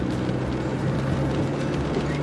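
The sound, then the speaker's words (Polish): Steady low engine and road rumble from a car driving toward the town of Ruhengeri, Rwanda, a continuous droning hum that stays even in loudness with no clear changes. “Teraz jedziemy do miasta zwanego Ruchengeri. W Ruchengeri wjedziemy na rynek, kupimy jakieś warzywa, owoce.”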